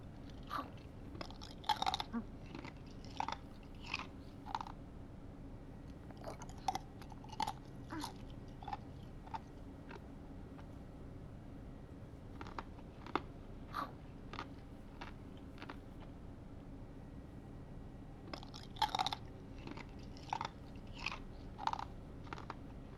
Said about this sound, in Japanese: それじゃあ食べよう。いただきます。